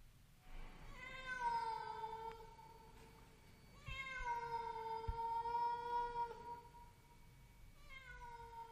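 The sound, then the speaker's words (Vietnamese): A cat meows mournfully from the roof space overhead. Two long, drawn-out wailing meows hold a steady pitch, and a third begins at the end, each separated by quiet pauses. “Tiếng mèo kêu não lòng.”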